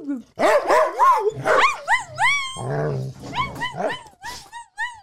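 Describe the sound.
An excited dog vocalizes in a growl-like way, with sung-sounding yowls and whines sliding up and down in pitch and a rougher growly stretch midway, running almost continuously for several seconds.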